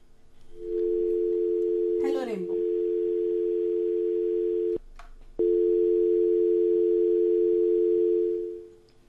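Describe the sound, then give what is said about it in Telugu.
A steady telephone dial tone on a call that fails to connect, one held pitch that cuts out briefly past the midpoint, then resumes and fades at the end. “Call కలవట్లేదు”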